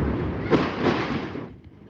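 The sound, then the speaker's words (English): Bombardment explosions in Gaza: a deep, broad rumbling blast that swells sharply, holds as a heavy roar, then fades into a low residual rumble toward the end. “More bombardment there.”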